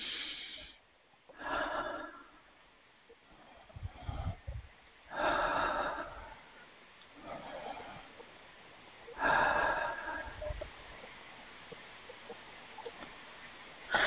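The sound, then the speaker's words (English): Slow, deep breathing during a guided relaxation exercise: a few long, airy inhales and exhales swelling and fading, separated by quiet pauses, with no talk. “Okay, three nice deep breaths.”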